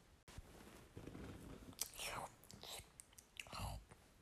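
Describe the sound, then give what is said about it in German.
Chewing and biting on green mushrooms taken from a wall, heard as several quiet, crunchy and moist bursts separated by short pauses, faint overall. “Ich esse die Pilze da. Die, du isst grüne Pilze von der Wand?”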